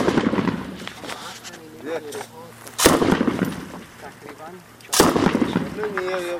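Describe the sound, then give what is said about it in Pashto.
Two loud, sharp cracks of hunting-rifle fire aimed at a roadside security post in Marja, spaced a couple of seconds apart, while a man talks steadily throughout. “وسلوالو دیوال وهلی دی او هره شیبه د عمومي سړک پر امنیتي پوسته د ښکاري ټوپک ډزې کوي”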